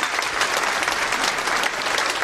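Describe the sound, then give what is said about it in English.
Audience applause at a holiday charity show raising donations for a food pantry: loud, dense clapping from many hands at a steady level throughout the short clip. “How about a round of applause for that? Woo, let's go.”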